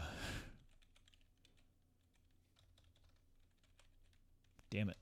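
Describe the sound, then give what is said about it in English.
Typing on a computer keyboard, a steady run of many quiet, light key clicks, with brief vocal sounds at the start and end. “I can't type. Got my fingers on the wrong keys.”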